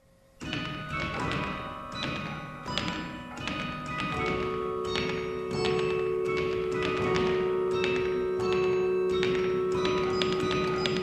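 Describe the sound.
A practice carillon at a university bell tower is played in many struck, bell-like metallic notes in a steady run, with a held tone sustaining beneath the strikes from about the midpoint on, and no voices.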